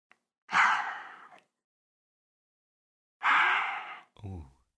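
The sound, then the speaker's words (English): A voice imitates very deep, weird breathing heard through an open window in the middle of the night: two long, loud breathy rushes separated by silence, the second followed by a short voiced groan. “it was just this really weird, like, very deep breathing of some kind, and it just kept going”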